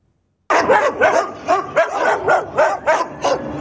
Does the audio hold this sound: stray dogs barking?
yes